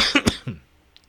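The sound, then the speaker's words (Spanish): A person coughs, a few quick, harsh bursts in close succession that stop abruptly and leave near silence. “La tos.”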